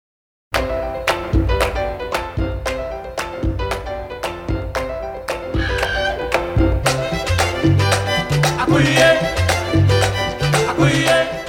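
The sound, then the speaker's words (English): Salsa music recorded in 1970s New York plays loud and steady, with a full band, sharp accented percussive hits and a driving bass line, without any talk. “That is the sound of New York City in the 1970s, and this week, the world lost a salsa music legend.”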